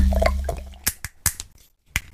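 A bottle being opened gives a few short, sharp clicks and cracks separated by brief pauses, after some soft muffled handling noise at the start.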